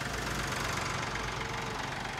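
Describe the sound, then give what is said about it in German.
A tractor engine runs with a faint, steady low rumble and an even, knocking texture. No one speaks. “Bist du schon hier mit dem Trecker? Ja, ich bin mit dem Trecker.”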